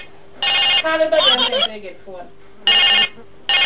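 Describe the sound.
Telephone ringing in short, bright electronic bursts, three rings in all, with a voice speaking briefly between the first and second ring.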